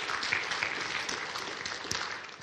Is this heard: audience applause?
yes